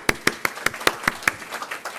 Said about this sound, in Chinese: 用掌声去鼓励他